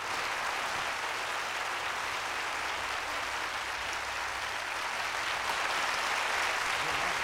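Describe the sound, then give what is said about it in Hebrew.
An audience applauds a singer at a live concert, a dense, steady patter of many hands clapping at moderate level that runs without pause. “כן, כן, עוד כפיים, לא לנו כמובן, אלא לזמר.”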